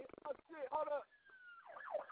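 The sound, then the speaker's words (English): An ambulance siren passing outside wails with a steady tone and then a rising and falling pitch, heard right after a few moments of people talking. “No, I'm just playing. It's just ambulance.”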